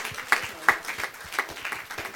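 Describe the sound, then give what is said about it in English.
A church audience applauds, scattered hand claps from a small group, fairly faint and uneven, with a few sharper claps standing out. “Round of applause.”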